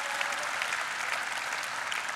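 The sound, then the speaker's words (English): Church audience applauding to welcome online viewers and other venues: dense, steady clapping that stays loud and even from start to finish. “What do you say we put our hands together and welcome all those that are watching online and our different venues? Come on, let them hear you a little bit.”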